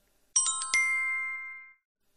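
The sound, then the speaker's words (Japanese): A phone ringtone announces an incoming call from a teacher inside a train car: a short, bright chime of about four quick notes, the last one ringing on and fading away over roughly a second. “老师来电话了。 先生から電話が来ました。”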